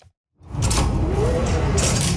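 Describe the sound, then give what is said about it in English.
A door at a mini grocery store unlocks with a phone tap: after a brief silence, a mechanical whirring and sliding sound starts and runs steadily to the end. “A door you can only unlock with the tap of your phone and inside a mini grocery store.”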